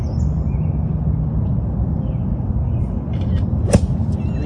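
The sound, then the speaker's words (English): A single sharp phone camera shutter click cuts in during a golfer's backswing on a junior tournament playoff hole, standing out against a steady outdoor hush with scattered high bird chirps. “Listen for the camera click, which comes right in Charlie Woods' backswing.”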